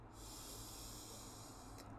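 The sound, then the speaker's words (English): A single long, deep inhale is taken during a meditation session. It sounds as a soft, steady rush of air that is faint and heard alone, ending with a brief quieter breath. “Inhale.”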